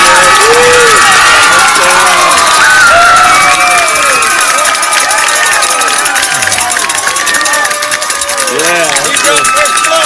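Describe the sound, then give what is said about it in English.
A crowd cheers as Waldron scores a touchdown at a Westside football game. Loud, continuous cheering mixes with shouting voices throughout. “I got this touchdown. The natural sound of Waldron scoring, courtesy of Justin Hicks.”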